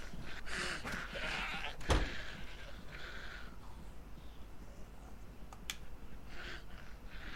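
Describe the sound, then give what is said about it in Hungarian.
Goats bleat in a video game as zombies chase them. Several faint, strained cries rise over a dense, noisy game backdrop, with one sharp impact early on. “Jaj, üldözik a szerencsétlen kecskéket a zombik, beszarok!”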